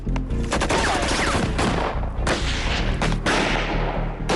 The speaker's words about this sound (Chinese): 2队立刻开火还击